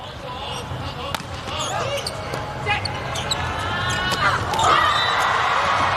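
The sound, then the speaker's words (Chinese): Volleyball serves struck during an international match in an arena, a few sharp hits rising over steady crowd noise, with voices throughout. “王媛媛发球”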